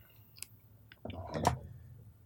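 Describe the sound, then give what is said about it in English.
Quiet clicks and crackly rustling as a marijuana pipe is loaded, a small isolated tap followed by a short cluster of scraping, crumbly sounds, then stillness. “Loading my pipe on the podcast feels very ASMR.”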